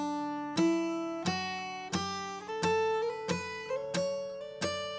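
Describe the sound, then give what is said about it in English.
Single notes of a major scale picked clawhammer style with the thumb resting on the low string, a steady run of bright plucks stepping upward in pitch, each note ringing out and overlapping slightly. “How does that play out with the clawhammer style technique? Well, we're gonna go ahead and play that single notes, okay? Again, thumb resting on that low string. It's gonna sound like this.”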